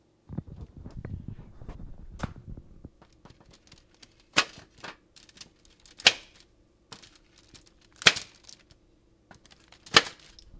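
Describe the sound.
A knife cuts cookies in half down the middle, giving a few sharp, crisp cracks spaced by quiet gaps, with faint crumbly rustling early on; the whole sequence is soft.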